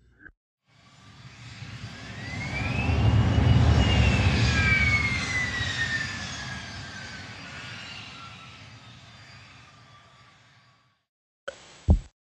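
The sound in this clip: A fixed-wing airplane takes off: the engine roar swells over a few seconds to a loud peak, with a high whine sweeping up and then down, then slowly fades away, ending with a couple of brief knocks.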